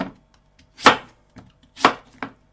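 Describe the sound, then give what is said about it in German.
A knife chops pumpkin into small pieces with a few sharp, crisp strikes in an uneven rhythm. Three of the hits are loud and the rest lighter, with near silence between them. “Und jetzt schneiden wir Kürbis, so kleine Stücke.”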